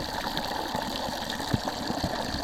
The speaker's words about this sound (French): Après là c'est aussi plus fort, le jet d'eau est plus fort quand même.